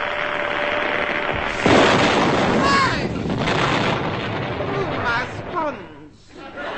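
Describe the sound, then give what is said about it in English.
Comedy sound effect of a Super Junior candle flash gun with a cardboard trigger firing as a camera flash: one sharp, loud bang-like burst amid voices and crowd chatter in a comedy sketch. “Super Junior candle flash gun with cardboard built-in trigger ready. Say cheese.”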